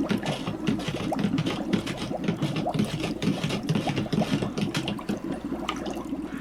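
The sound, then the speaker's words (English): Spoon stirring cream in a container, a steady, continuous run of quick scraping clinks with soft liquid swishing throughout. “We'll take our trusty spoon. And, well, maybe a little too much cream. Whatever. We're just gonna stir this up.”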